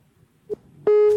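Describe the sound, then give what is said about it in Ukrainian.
A telephone busy signal from a dropped call begins with a short beep. A louder, steady tone follows and holds to the end, at a single mid pitch with bright overtones, over faint low background noise and no talk. “Так, так, так, два дзвінки зриваються.”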